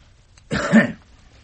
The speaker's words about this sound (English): Now just give me a cough, will you? And again.